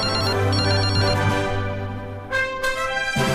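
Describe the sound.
A telephone rings with a loud electronic ringtone of steady, sustained tones, carrying on continuously with only a slight dip partway through.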